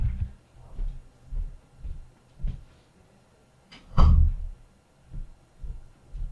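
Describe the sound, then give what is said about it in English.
A door is pushed shut with one heavy, dull thud, preceded by a few softer bumps and knocks; no voices. “So, just 1 minute, I need to close the door.”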